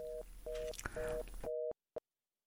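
A telephone busy tone after a call is cut off: four evenly spaced, steady beeping pulses, then sudden silence broken by one short final blip.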